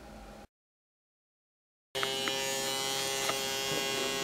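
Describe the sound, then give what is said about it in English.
A microneedling pen fitted with about 12 needles runs with a steady electric buzz rich in overtones, briefly cut to silence before the buzzing resumes and continues evenly. “So this pen has about 12 needles on it. We're able to adjust the depth that the needles go, also the speed at which they travel.”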